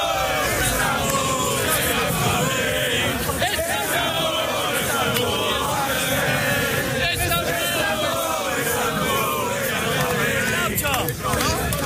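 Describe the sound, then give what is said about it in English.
Football fans celebrating outside Stamford Bridge after their team reached an all-English Champions League final: dense, continuous crowd noise of overlapping voices, shouting and chatter, loud throughout without a pause. “That's the sound of fans outside Stamford Bridge celebrating the upcoming final against Man City in a few weeks' time.”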